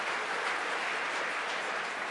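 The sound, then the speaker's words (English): Applause from a conference hall crowd, a continuous, even wash of many hands clapping that stays faint and steady from start to finish. “We're laughing up here in the translation box. And there's lots of applause from the hall.”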